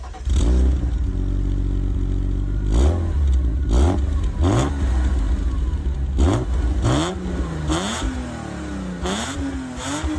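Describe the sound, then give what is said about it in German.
A homologation-model sports car that reaches 100 km/h in 5.9 seconds accelerates hard. Its loud engine note climbs in pitch and drops back several times at gear changes, with clattering mixed into the roar. “Wir steigen ein und starten. Fahren.”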